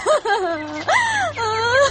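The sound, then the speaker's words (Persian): A person crying in several loud, wavering, moaning sobs, each voiced wail rising and sagging in pitch, with short breaks between them. “خود دیگه تو چرا گریه میکنی؟”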